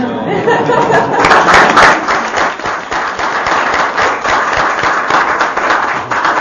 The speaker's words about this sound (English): A big round of applause for